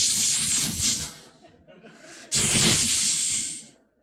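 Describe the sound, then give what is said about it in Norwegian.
A person imitates a snake's hiss with two long, loud, breathy hisses separated by a brief pause, the second one slightly longer and fading out at the end. “Jeg synes liksom, jeg ser for meg slangen, jeg. Har du hørt slangen? Den sier sånn,”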